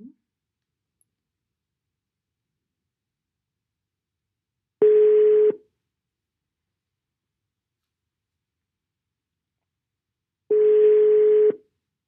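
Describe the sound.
Ringback tone of an outgoing telephone call: two steady, low-pitched buzzing tones, each lasting under a second and separated by several seconds of silence, with no voices.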